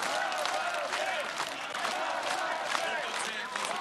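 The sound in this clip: A crowd of Ukrainians gathered outside parliament applauds and cheers during a presidential inauguration, reacting to the decision to dissolve parliament. The clapping and raised voices form a faint, steady roar throughout.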